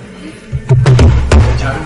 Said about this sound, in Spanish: Dejen de golpear la mesa, que el micrófono lo capta muy bien.